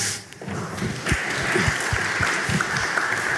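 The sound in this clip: An audience applauds to welcome a drummer onto the stage. The clapping is loud and steady for a few seconds, with a few low thuds mixed in.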